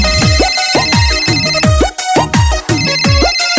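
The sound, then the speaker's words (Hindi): A mobile phone rings and nobody answers it. The loud electronic ringtone repeats a short melodic phrase of swooping tones over and over, with no voices. “देख भाई फिर ring हो रहा, phone नहीं उठा रिया”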